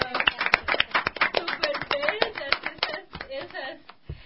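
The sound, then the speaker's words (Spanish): Applause at a children's Mother's Day gathering. Many sharp, separate claps come from a small group, with voices mixed in, and the clapping thins out toward the end. “¡Aplausos!”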